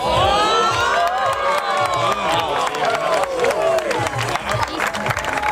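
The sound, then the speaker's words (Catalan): A crowd cheering at the Ebro Observatory during a solar eclipse: loud excited shouts, high whoops and children's cries overlap in a sustained burst of cheering, with some scattered clapping. “Mireu, com que no podem descriure a vegades en paraules el que vivim, escolteu la reacció de la gent.”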